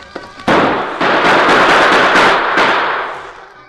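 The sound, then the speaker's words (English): Gunfire in a Western shootout as bullets strike the boulders around a rider taking cover: a few sharp, loud blasts, each trailing into a long, harsh noisy wash. “Bullets struck the rocks on all sides of the Lone Ranger”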